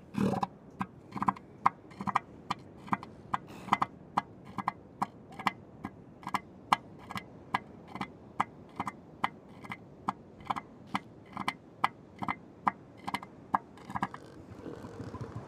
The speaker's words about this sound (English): What you just heard was a northern elephant seal.